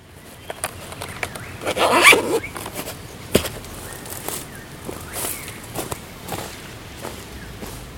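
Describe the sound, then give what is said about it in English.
Footsteps are picked up close by a sensitive microphone, a series of soft, irregular steps with crisp transients. A brief zip-like rustle comes early on. “And it was the mic that, you know, my steps are recorded by this guy.”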